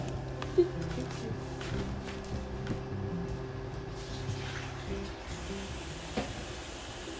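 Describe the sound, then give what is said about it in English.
Warm water runs into a bathtub to top up a cooling bath. The fill makes a steady, continuous rushing noise that stays fairly faint and even throughout, with no clear pauses. “I'm going to get some more warm water because my water is getting cold.”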